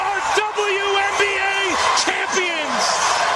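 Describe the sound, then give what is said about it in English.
Arena crowd roaring at Wintrust as the Chicago Sky clinch a first-in-franchise-history win, a sustained loud cheer running under an excited commentator's voice. “listen to that crowd and what a scene at Wintrust.”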